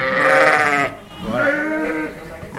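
A ewe bleats to call her lamb: two loud, wavering bleats with a short pause between them, and no other sounds.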